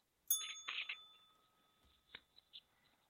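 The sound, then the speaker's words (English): A bell rings out once with a bright, lingering tone that slowly fades, while several short, sharper sounds break in afterward. “Enough with the fucking bell.”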